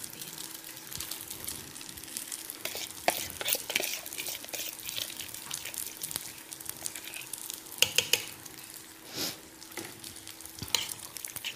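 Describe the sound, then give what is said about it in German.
Spoon stirring a thick pasta and cheese mixture, thickened with cornstarch, in a pot: many soft, irregular scraping and squelching strokes with a wet sizzle, a few sharper clicks against the pot. “Das Ganze gut mischen im Topf.”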